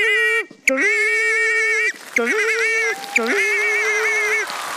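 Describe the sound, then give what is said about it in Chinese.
A person imitates a pig with their voice in a sound-imitation contest, making several long, strained nasal calls with wavering pitch, loud and without other talk. “第一种声音，给我学一只猪。 学只猪呀，没问题，听好了。”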